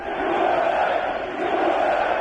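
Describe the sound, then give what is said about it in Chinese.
A stadium crowd roars and cheers at an Army–Navy American football game, forming a loud, continuous wall of massed voices with no distinct breaks. “在这个看台上爆发出雷鸣一般的 USA 的口号声。”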